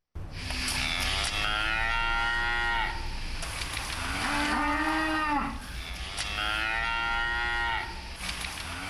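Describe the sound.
Cattle lowing: a herder's cows along the Vina River in Cameroon's Adamawa region give three long, loud, harmonically rich moos in close succession, with no voices.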